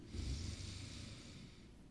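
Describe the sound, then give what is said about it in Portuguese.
One slow, deep breath drawn in through the nose, heard as a faint, breathy rush of air on its own. It swells early and then tapers gently over about two seconds. “inspira bem fundo, assim”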